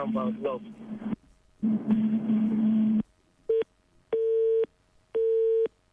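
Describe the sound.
A telephone busy signal sounds during a call attempt: after a stretch of voice-like sound, three steady mid-pitched beeps follow with silent gaps between them, the first shorter than the other two.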